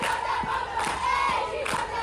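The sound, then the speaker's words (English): Women's college softball players cheering and chanting together in a dugout. Loud voices chant in unison over a steady rhythmic pulse of low thumps. “softball players have brought a lighthearted nature to dugouts, complete with cheers, chants, dances, and props.”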